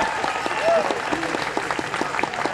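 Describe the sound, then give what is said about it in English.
Audience applause welcomes a guest on stage: steady, even clapping runs throughout while a man keeps talking over it. “Let's make Janice welcome, will you? Nice hand for Janice.”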